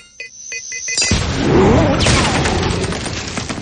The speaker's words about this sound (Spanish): Harry toma una de las esferas y se la lanza a Peter, pero este se la hace volver con telaraña y le explota al lado.